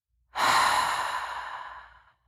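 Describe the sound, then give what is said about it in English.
One long, slow breath, most likely an exhale through the mouth during a guided meditation breathing exercise: a steady airy whoosh starts abruptly, holds, then gradually fades out, with no talking over it. “We're going to practice by just breathing in through your nose and breathing out through your mouth.”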